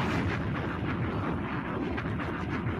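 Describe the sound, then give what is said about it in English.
A bomb explosion sound effect: a deep, dense, roaring rumble that holds steady at a moderate level for its whole length without any break. “Hit that bomb.”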